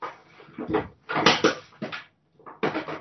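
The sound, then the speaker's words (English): Clattering and knocking as someone cleans out a cupboard, several short bursts of rummaging thuds and rattles separated by brief pauses. “Somebody's cleaning out the cupboard or something.”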